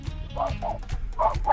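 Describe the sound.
A dog gives a few short, yappy barks, fairly faint over a low rumbling background.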